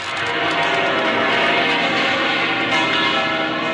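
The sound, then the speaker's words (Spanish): Church bells of a cathedral in Madrid peal without pause during a papal welcome, a dense, steady wash of overlapping ringing with no separate strikes, loud and even throughout. “No han parado de replicar las campanas de la Catedral de la Almudena,”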